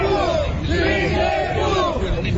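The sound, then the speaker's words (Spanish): A crowd cheers and shouts in a loud, unbroken roar of many blended voices that holds steady from start to end, with no pauses or distinct single calls. “Le están aplaudiendo.”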